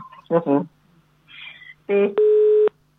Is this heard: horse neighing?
no